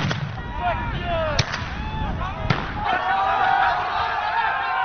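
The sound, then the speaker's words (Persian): Police fire tear gas and rubber bullets at refugees at the Macedonia–Greece border fence. Two sharp bangs cut through a constant, loud din of a shouting crowd. “پلیس آنها را با گاز اشک‌آور و گلوله‌های رابری نشانه می‌گیرد.”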